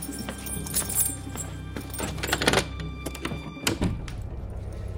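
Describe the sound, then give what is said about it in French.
A door to a royal bedchamber is pushed shut: scattered knocks and shuffling clatter lead to one heavy, dull thunk near the end, followed by a quieter settling. “Fermez la porte.”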